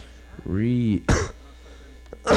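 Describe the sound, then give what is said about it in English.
A single sharp cough breaks in right after a sustained voiced tone. Quiet follows, and a short noisy burst comes at the very end. “Cough ended it.”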